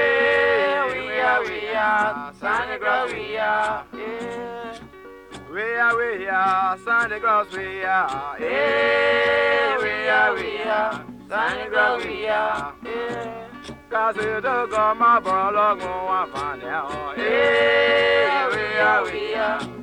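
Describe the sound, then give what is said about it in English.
Liberian street music from a troupe in colorful costumes and humorous masks: group singing with instruments in loud, rhythmic phrases broken by brief pauses, continuing throughout. “The Santa Claus Boys wear colorful costumes and humorous masks, and the music they make, it sounds like this.”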